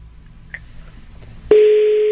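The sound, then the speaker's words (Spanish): A telephone line tone after a number is dialed: quiet line noise with one brief faint blip, then a loud, steady, continuous tone that starts abruptly and holds to the end. “estoy marcando el número que traigo de cosas del Metrobús”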